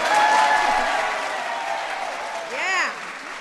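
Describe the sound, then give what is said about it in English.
Audience applause for parents, grandparents and Healthy Lunchtime Challenge winners, a steady wash of clapping that eases slightly, with a brief cheer rising near the end. “grandparents a round of applause. And finally, to our 54 Healthy Lunchtime Challenge winners, congratulations.”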